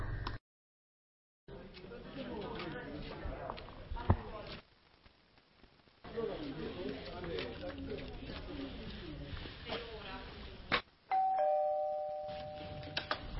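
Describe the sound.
A doorbell rings as the postman arrives at the door, one clear tonal chime near the end after a stretch of voices talking.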